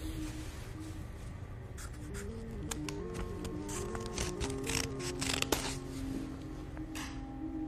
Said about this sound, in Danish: Så, nu har jeg lavet opslaget og klippet nogle fine snipper for neden.